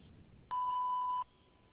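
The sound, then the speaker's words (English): A single voicemail answering-machine beep: one steady, mid-pitched electronic tone lasting under a second, clean and alone with no voices around it. “I'm currently not available, so please leave a message after the beep.”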